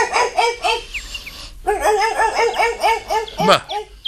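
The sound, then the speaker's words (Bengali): A spaniel barks in a rapid run of many short, yapping barks, sharp and repeated in quick rhythm, pausing briefly before resuming. “আপনার এই কুকুরটি তো বেশ জাতের spaniel বলে মনে হচ্ছে, কত দাম ওর?”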